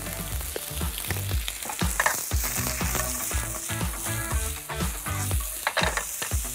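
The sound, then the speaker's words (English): Onions with a pinch of salt sizzle in a pan over full heat. A steady, dense frying hiss runs throughout, broken by repeated scraping and stirring knocks. No voices are heard. “Now, let's get in with the onions. Also onions, pinch of salt.”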